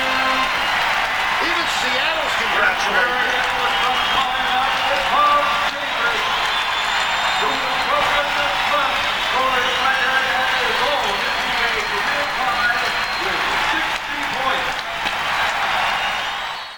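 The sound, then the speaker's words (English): A basketball arena crowd gives a long, loud ovation with applause and cheering for a player who has just scored 60 points. The roar of the crowd holds steady throughout. “You're going to hear, well, listen to this ovation when he comes out.”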